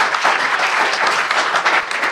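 Audience applause thanking the compere at a veterans' event, a loud, sustained round of clapping from many hands with no pause.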